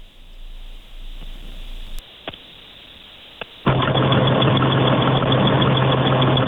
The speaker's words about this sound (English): now that sounds like an RV